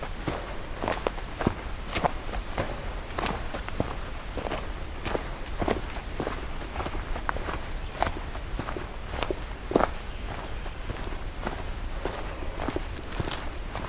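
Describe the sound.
Footsteps of a person hiking outdoors in the afternoon, many evenly spaced steps at a steady walking pace, each a soft, sharp thud, with no talking.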